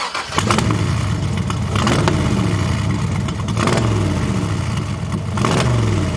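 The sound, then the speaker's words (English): A loud AC Cobra with a Ford 289 V8 revs hard. The engine roars continuously and climbs in pitch several times in a row, with no talk over it. “And that was a Cobra with a Ford 289 V8 in it.”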